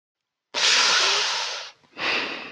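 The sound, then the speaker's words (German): Heavy snorting breath, two loud, rough, noisy bursts of air: a long forceful blast that slowly fades, then a brief gap and a second, shorter burst. “Ein Schnaufen aus Berlin.”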